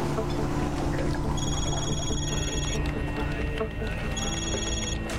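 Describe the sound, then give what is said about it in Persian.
An electronic telephone rings in a naval command office in two high, warbling bursts over a steady background hum. “امیر تلفن با شما کار داره. سردار پشت خط هست.”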